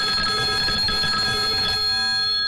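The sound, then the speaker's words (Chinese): A telephone rings with a bright, steady electronic tone built of stacked harmonics. It stays loud and continuous, then thins out slightly near the end, with no voices. “不信呐，我这就给他打电话。嘟嘟嘟嘟嘟， 来了，”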